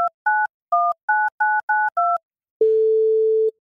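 Telephone keypad tones dial a number, seven short two-tone beeps in an uneven rhythm, then one long steady ring tone sounds while the call waits for an answer.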